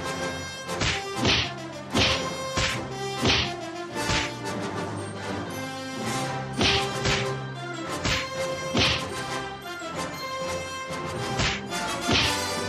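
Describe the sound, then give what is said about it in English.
Staged fight sound effects of punches and hits: many sharp whacks and thuds in a fairly regular rhythm, heard over a loud, steady music bed. “Well, actually, we just put a couple of sound clips to make it sound like I knew how to fight.”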